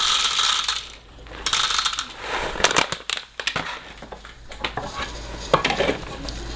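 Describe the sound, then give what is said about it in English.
Coffee beans crunch and rattle in a grinder in irregular loud bursts of crushing, with short dips between them. “Now we're gonna grind it up. It's tremendous. Live grind, yeah. Yeah, get the live process, y'all.”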